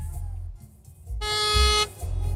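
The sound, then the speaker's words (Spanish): A feeble car horn gives one thin, steady honk lasting under a second over a low rumble. “¡Pinche pito bien aguado!”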